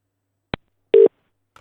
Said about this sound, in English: So let's try it. I'm dialing his number now.